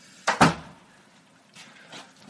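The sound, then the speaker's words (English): A door is shut with two quick, close thumps of impact, followed by faint, softer knocks afterward. “Just close the door. Should have done that first.”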